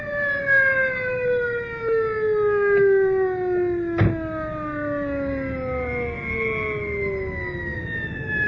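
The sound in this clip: An ambulance siren wails on its own, loud and sustained, its tone sliding slowly downward in pitch, with one sharp knock partway through.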